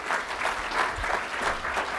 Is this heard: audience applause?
yes